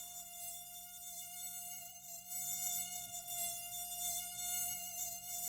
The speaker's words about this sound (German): Oh, furchtbarstes Geräusch der Welt. Mücken, ne?